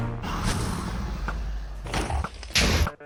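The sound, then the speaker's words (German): Wither boss shooting in a video game: dense, rumbling explosive thuds and booms pile up continuously, with a sharper, louder blast burst near the end before the noise cuts off. “Und der Wither schießt da unten auch schon überall rum.”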